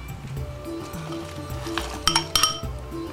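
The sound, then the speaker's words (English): Clinks and knocks as apple slices and margarine or vegetable oil go into a mixing bowl for a Passover apple kugel. A few sharp clinks cluster near the end over a steady low tonal background. “And the margarine or the whole vegetable oil, whichever you're using. And finally, the apple slices.”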